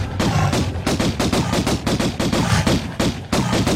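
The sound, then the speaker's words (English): Gunshots from the Tomb Raider video game, with Lara Croft firing at a bear. Many loud shots come in a fast, steady rhythm with scarcely a pause. “That's Laura Croft shooting a bear.”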